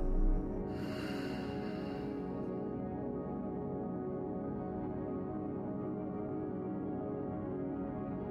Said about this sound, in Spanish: Inhala. Y exhala.